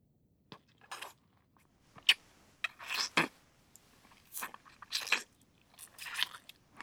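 Someone eating a mouthful of food: faint, crisp crunching and chewing bursts come at irregular intervals with quiet gaps between them.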